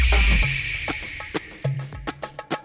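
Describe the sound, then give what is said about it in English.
A darabuka goblet drum struck with the fingers plays a rhythmic pattern of many strokes: deep booming bass hits mixed with sharp, bright slaps, closing with a quicker run of crisp taps. “It's called a darabuka or a goblet drum.”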